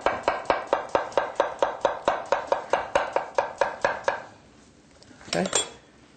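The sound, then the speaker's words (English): A knife slices vegetables into half moons for a salad, cutting straight down onto a board in many quick, evenly spaced crisp taps, then stops and is followed by a short scraping clatter. “And then we'll just use half moons. And we'll just cut with our knife going straight down.”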